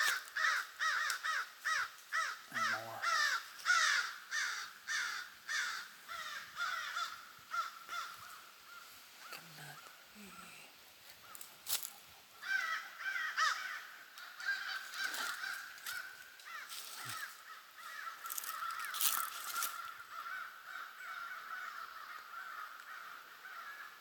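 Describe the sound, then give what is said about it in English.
Many American crows cawing at River Bend Park along a walking trail, harsh repeated calls in overlapping bursts that continue throughout, with no talk. “American crow, River Bend Park”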